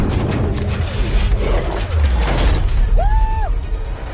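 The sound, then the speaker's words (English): A police car smashes into the side of another during a chase, flips over and lands on its roof. Shattering glass and rattling metal play over steady engine noise, and a short high squeal follows near the end. “one police car smashes into the side of another. The car that hits side on flips right over and lands on its roof.”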